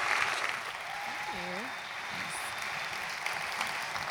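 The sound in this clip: An audience at Hope College applauds to welcome a speaker: dense, steady clapping fills the whole stretch, with a voice briefly audible over it.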